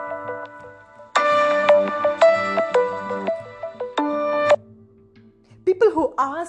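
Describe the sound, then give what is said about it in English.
A phone ringing with a melodic electronic ringtone: several loud bursts of bright tones in a repeating tune, then a voice starts talking at the end. “I'm sorry, I know the phone rang, it's my sister, I called her, she couldn't call me back that time and now she called me.”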